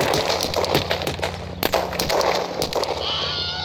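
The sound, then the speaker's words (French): A gunfire salvo at targets during firing practice: many sharp, rapid bursts crackle loudly over a steady low tone. “Prête pour la salve À mon commandement, ouvrez le feu”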